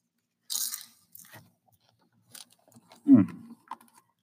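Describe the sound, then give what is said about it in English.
Popcorn crunches as someone eats it. A few short, dry bites and chews come in separate bursts, with quiet gaps between them. “That's why this episode is taking so long, because I'm eating half the time.”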